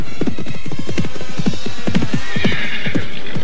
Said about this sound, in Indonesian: Ke-6 penunggang kuda itu berusaha memacu kuda mereka dengan cepat.